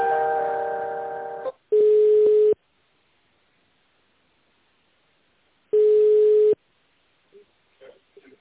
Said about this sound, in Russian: давайте я вас соединю с отделом сбыта.